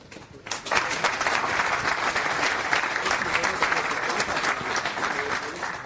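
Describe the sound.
Audience applause at a conference as a speaker is welcomed to give a talk on satellite hardware. Steady clapping starts after a brief quiet moment and continues evenly to the end without any voices.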